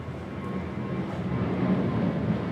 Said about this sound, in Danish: Som så også ligger tæt på lufthavnen, kan jeg fortælle jer. Det er meget praktisk, det hele. Faktisk så flyver flyene lige indover.